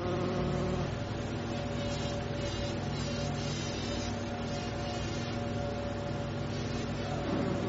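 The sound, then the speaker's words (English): A bee buzz-pollinates a flower, its whole body vibrating in a buzz pitched around middle C, louder and higher than its flight buzz. The droning hum is steady and continuous throughout, with no pauses. “This full body vibration causes the distinct buzzing sound you hear when bees are on a flower, which is a bit louder and higher pitched than regular flying buzzing.”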